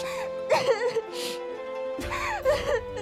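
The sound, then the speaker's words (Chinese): Crying: wavering whimpers and sobbing wails in a voice, rising and falling in bursts at moderate loudness. “别哭了。”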